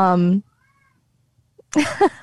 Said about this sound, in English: My cat's starting to scream now, just in time for us to end the podcast.